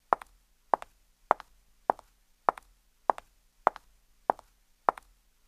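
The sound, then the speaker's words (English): A woman walking in high heels: nine sharp, hard clicks at an even, unhurried pace, each one crisp and short with near silence between steps. “High heels, a woman walking.”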